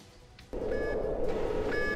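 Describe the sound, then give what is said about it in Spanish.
A beeping spoiler-warning sound effect: a steady buzzing tone starts abruptly and carries a few short, high beeps. “Bueno, venga, voy a darle al aviso de spoiler y oh, ya todo lo que digamos a partir de ahora ya es bajo vuestra responsabilidad.”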